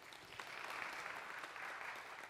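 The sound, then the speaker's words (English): Congregation applause during a church service, a continuous, even patter of many hands clapping at a fairly soft level, holding steady from start to finish. “Y'all give him a round of applause.”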